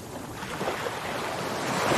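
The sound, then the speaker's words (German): Surf washing onto a beach at Puerto Escondido on Mexico's Pacific coast, a soft, continuous hiss of breaking water that swells gradually louder toward the end. “hier an der mexikanischen Pazifikküste in Puerto Escondido,”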